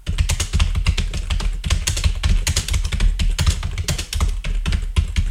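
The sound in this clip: Typing on a computer keyboard: fast, continuous key clicks in an uneven rhythm, loud and alone, with many strokes throughout.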